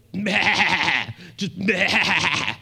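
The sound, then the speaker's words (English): A person's voice imitates a flock of goats bleating, giving two long, wavering, nasal bleats separated by a short pause. “a flock of goats, just picture a flock of goats, just like,”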